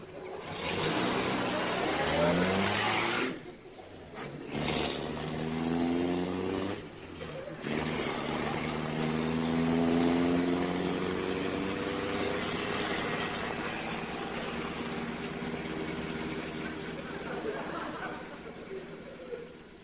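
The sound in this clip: A car engine hums as the car drives on, a steady mid-pitched drone whose tone climbs gradually, broken by a couple of brief dips.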